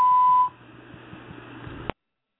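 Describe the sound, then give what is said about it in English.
A censorship bleep covers a slur in a recorded speech: one loud, steady high tone lasting about half a second, then faint muffled recorded audio continues. “Now, all those beeps that you heard was where they used the N-word.”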